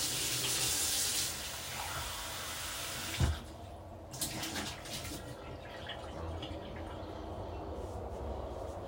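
Tap water running while something is rinsed under it, a faint, steady rushing hiss with an occasional knock and splash.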